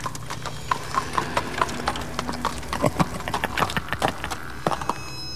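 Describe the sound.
Hooves of a horse being ridden off in a Wild West setting: many irregular, fairly loud clip-clop beats that run unevenly through the whole stretch with no voices.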